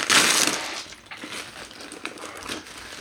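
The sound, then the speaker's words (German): Wrapping crinkles as a package holding a card game is unpacked: a loud burst of crackling plastic and paper at the start, then softer intermittent rustles and crinkles. “Ich möchte es gerne alleine auspacken.”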